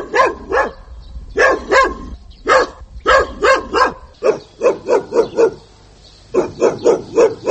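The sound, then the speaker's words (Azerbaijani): Feral dogs bark in a village with many short, sharp barks in a steady rhythmic run, coming in loose clusters. There is a brief lull before the barking resumes at the same pace. “Naxçıvanın Babəh rayonunun Şıx Mahmud kəndində vəhşiləşmiş itlər həyətlərə hücum edir.”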